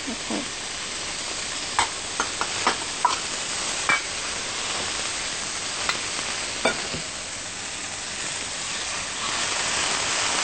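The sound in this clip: Water is added to a cooking pot of cloud ear fungus seasoned with salt and sugar, bringing a steady broad hiss and sizzle with a few sharp clinks and taps early on.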